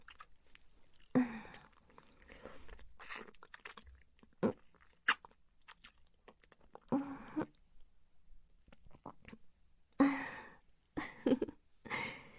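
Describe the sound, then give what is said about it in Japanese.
Someone chewing while tasting food, with scattered moist, crunchy bites in irregular bursts separated by quiet gaps. A few of the bursts are sharper and louder than the rest. “味見してるのよ。”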